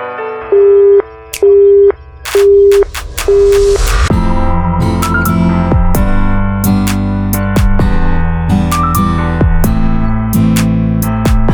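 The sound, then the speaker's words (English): A telephone busy signal sounds four evenly spaced, steady mid-pitched beeps, then gives way to a louder, dense run of sustained tones. “Sorry, the subscriber you dialed is busy now. Please redial later.”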